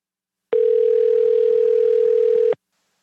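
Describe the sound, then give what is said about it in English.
A telephone dial tone sounds while a call is being placed. The tone is steady and unbroken, holds for about two seconds, and plays alone with no talk. “But I managed to get his phone number again. Let's give him a call.”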